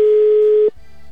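A telephone ringback tone from an unanswered call: one steady, mid-pitched electronic tone that holds for about 0.7 seconds, then cuts off abruptly, leaving only a faint low background hum.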